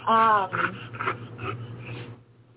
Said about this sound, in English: That's the dog.